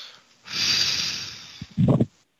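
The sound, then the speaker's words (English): A forceful breath is blown out hard during a prayer session: a loud, breathy hiss lasting about a second, then a short, rougher burst of breath. “Take a breath. Blow them out.”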